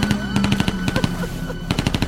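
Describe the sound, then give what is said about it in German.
Loud, rapid automatic gunfire in two bursts of sharp, evenly spaced shots, separated by a brief pause. “Mann, warum schießen bloß alle auf uns?”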